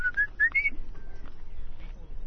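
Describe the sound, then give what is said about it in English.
A tiny, delicate black-and-white bird with a thin beak calls in a forest: three quick, high, thin whistled notes, then a fainter drawn-out tone, all quiet. “Like a tiny little delicate bird with a thin beak and black and white.”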